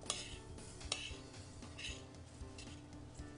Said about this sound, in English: And then finally some wheat germ. I'm gonna give that a stir.